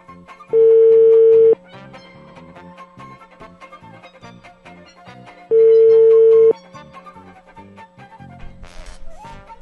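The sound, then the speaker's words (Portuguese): Telephone line tones while a phone call is being placed: two loud, steady one-second tones spaced about four seconds apart, over a faint background. “Deixa eu ligar para ele aqui, vai.”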